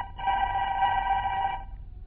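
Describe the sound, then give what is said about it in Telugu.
A telephone rings for a busy doctor: one continuous electronic trill lasting about a second and a half, fairly faint, then it stops. “బిజీగా ఉన్న ఓ doctor గారికి phone వస్తుంది.”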